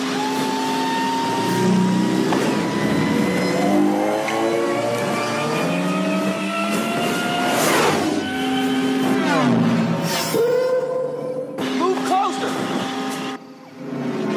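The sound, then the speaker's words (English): Speeder bike chase sound effects from a film: loud engine whines sweep up and down in pitch as the bikes race past, with voices mixed in. “So then, shortly after that, you got the speeder bike chase.”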